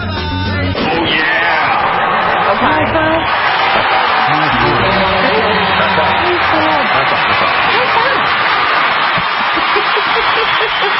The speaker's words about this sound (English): Listen to our live studio audience.